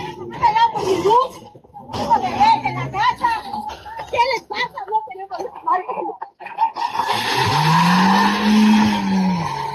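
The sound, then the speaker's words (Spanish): A car peels out with tires screeching hard during a tense protest blockade on a southern ring road with angry motorists. Voices talk and shout first, then a loud, sustained tire squeal fills the end. “Y ahí estaba escuchando usted el tremendo arrancón del vehículo que se alcanza a oír al final del audio”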